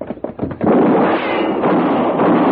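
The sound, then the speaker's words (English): A gunshot fired by a gunfighter at a man: a few light knocks come first, then a sudden loud, dense burst that stays sustained and noisy to the end. “You shot at that man. You killed him.”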